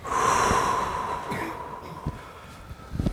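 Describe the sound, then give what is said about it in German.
Deep, audible breathing during a guided wave-breathing exercise that draws air into the belly, up to the chest, then releases it. One long, loud breath fades out over a couple of seconds, followed by a few soft breathy sounds. “In den Bauch einatmen, hoch bis zur Brust und loslassen.”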